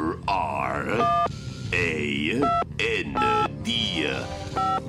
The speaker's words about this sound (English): Quickly, into the portal. Set it at random. All right, let me manipulate the dial here.